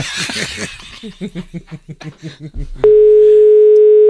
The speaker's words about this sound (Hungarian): Nem veszi föl, hívunk más.